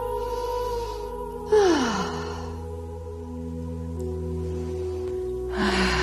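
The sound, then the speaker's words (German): Breathy sighs during a guided breathing exercise, a deep breath in and out over a soft, steady tonal backdrop. One clear airy breath is followed by a quiet stretch, then a second breath begins near the end. “Dann atme auch hier nochmal tief ein und aus.”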